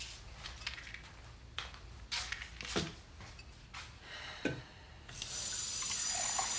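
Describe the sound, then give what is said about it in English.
Kitchen faucet water runs into a glass at the sink. A few soft knocks and clicks come first, then the water starts abruptly as a steady, fairly loud hiss that lasts to the end. “She turns on the faucet and fills the glass with water.”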